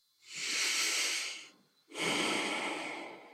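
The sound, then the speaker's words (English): A group of people take one deep breath together, heard as two long, loud, airy breath sounds with a short pause between them. No talking. “Maybe we all just take one breath right now.”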